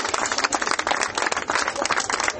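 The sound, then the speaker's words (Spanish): Audience applause for a comrade, a short burst of dense, rapid clapping that stays loud and steady from start to finish. “Un aplauso para el compa de Che Adelita.”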